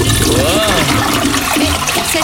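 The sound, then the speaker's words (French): A toilet flushes with a loud, rushing gush of water that pours steadily through the whole clip, gurgling and trickling as it drains. “Ok, je tire la chasse.”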